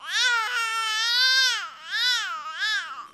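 A baby vocalises one continuous sound shaped into four melodic arcs, its pitch rising and falling in smooth, bright waves. The first arc is brief, the second longest, and the last two shorter.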